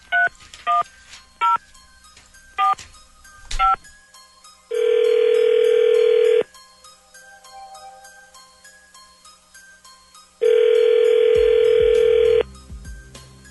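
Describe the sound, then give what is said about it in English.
A phone number being dialed at random on a touch-tone telephone: several short keypad beeps in quick succession, then two long, steady ringing tones separated by a quiet gap. “Dialing at random. Okay, here we go.”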